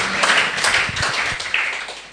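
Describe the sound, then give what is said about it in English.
Congregation applause in a church, a round of applause for the Lord: brisk, fairly loud clapping from many hands, steady across the short stretch. “I want us to give the Lord a round of applause.”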